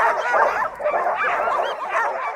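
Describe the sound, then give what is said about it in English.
Excited sled dogs barking on a snowy glacier near Juneau, with many overlapping high yips, whines and barks forming a loud, continuous, restless chorus. “And far below, on a flat patch of white, there are a bunch of very excited dogs.”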